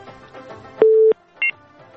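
Telephone tones from a call being dialled that fails to connect: a loud steady beep lasting about a third of a second, then a short higher dual tone, over faint background noise.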